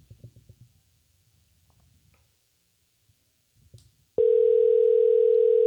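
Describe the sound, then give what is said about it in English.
A steady telephone dial tone, heard while a number is being dialed, starts abruptly near the end and holds loud and unbroken to the finish, after a few faint low mumbling sounds and a brief click. “All right, man. Let me dial on in.”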